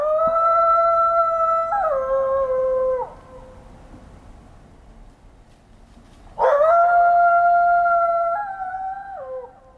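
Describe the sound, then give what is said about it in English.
A coyote howls in a backyard: two long, loud howls, each holding high wavering notes that step down in pitch before fading, separated by a quieter pause, with no voices. “That is the sound of the howls of a coyote that visited one of our producers, On Point producer Tim Skoggs' yard”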